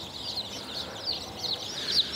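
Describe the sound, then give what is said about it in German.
Many chicken chicks peep under a heat lamp, a continuous chorus of high, thin chirps overlapping with no pause. “So viele Küken habe ich auch noch nicht auf einmal in der Hand gehabt. So, aussteigen. Schön unter die Wärmelampe.”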